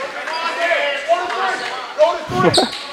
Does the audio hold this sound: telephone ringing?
no